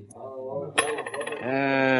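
A coin is tossed onto the table as a poker bet in a frontier Western card game, landing with a single bright metallic clink.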